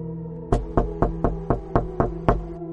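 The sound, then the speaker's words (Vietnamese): Knocking on the wooden door of a village chief's house: eight sharp, hollow raps in an even, steady rhythm, with a faint tonal background and no voices. “Bảo Lâm gõ cửa, vài ba tiếng lóc cốc vang lên, nhưng bên trong không có hồi âm.”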